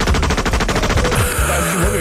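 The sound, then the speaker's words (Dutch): Machine gun fired across a farmyard: a loud, dense stutter of rapid shots lasting about a second, then breaking into a rougher, uneven tail. “Dus hij, uh, hij pakt, pakt een mitrailleur, weet je wel. En hij, hij, hij begint gewoon zo over het erf heen... hij begint gewoon te schieten”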